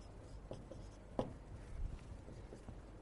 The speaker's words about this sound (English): Now notice I write this with a small a.